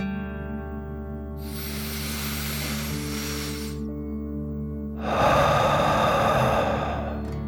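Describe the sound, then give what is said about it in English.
A deep breath is drawn in, then blown out through the mouth. Each is a long, soft, airy rush, and the exhale is louder and fuller. Both play over a steady, held musical drone. “out through your mouth, pretending you are breathing fire like a dragon. Ready? Deep breath. In and out.”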